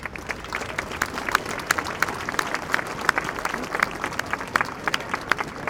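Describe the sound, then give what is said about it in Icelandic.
Audience clapping to welcome a large choir onto a stage. Many individual claps patter in a steady, moderately loud stream, with sharper hand strikes standing out now and then. “En við skulum bara gefa þeim gott klapp til að byrja með.”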